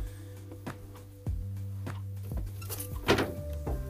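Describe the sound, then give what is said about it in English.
A door in the background makes a few faint, dull thunks and rattles over a low, steady hum. “sorry about that, you can hear my door in the background”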